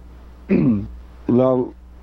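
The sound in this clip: A person with sinus trouble and allergies clears their throat in two short, rough bursts separated by a brief pause.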